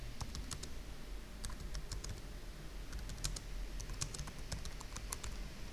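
Computer keyboard typing while someone writes a to-do note in code: many quick, faint keystrokes in uneven bursts with short pauses between them.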